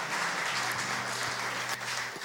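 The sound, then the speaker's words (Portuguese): At a church service, an audience applauds a couple and their family after a blessing. Many hands clap in a dense, steady patter that lasts the whole moment, with no voices over it. “Uma salva de palmas ao casal, à família.”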